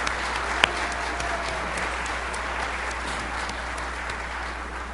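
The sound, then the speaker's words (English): A church audience applauds the musicians at a Sunday Advent service. The clapping stays steady and dense at a moderate level from start to finish. “Another hand for our great musicians this morning.”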